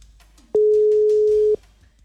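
A telephone call rings through on a radio phone line as a single loud, steady mid-pitched ring tone lasting about a second, with faint background noise before and after.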